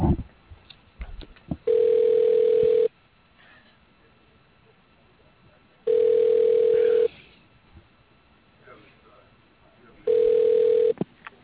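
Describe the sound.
Telephone ringing tone on a line while a call is transferred to a company operator: three steady, mid-pitched tone bursts of just over a second each, evenly spaced about four seconds apart, with faint line noise between them.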